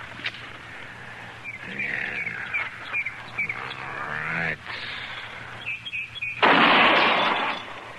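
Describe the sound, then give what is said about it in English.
A rifle fires at a target, steadied on a fence rail. Faint voices come first, then a single loud, sharp shot bursts out near the end and briefly fills the sound. “Yeah, it's hitting where it's aiming, all right. I guess Andy got the kink out of it. He always does. Takes old Andy a month of Sundays to fix a gun, but once it's done right. Yeah. Well, there's no point in burning up any more ammunition.”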